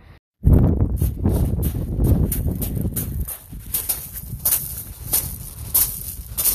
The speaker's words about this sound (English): That's the sound of the stone pebbles on the top floor. This was to make it sound like more men were guarding Shoreham Fort.